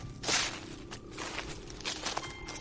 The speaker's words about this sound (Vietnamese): lắng nghe tiếng bước chân vang lên